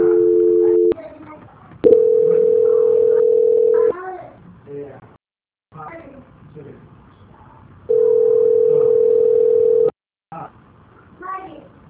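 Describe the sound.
Telephone dial tone heard during a call transfer: three steady, unbroken tone stretches, the later two lasting about two seconds each, alternating with stretches of a voice talking.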